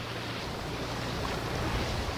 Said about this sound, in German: Gerade fährt ein Boot vorbei, danach ist es wieder still.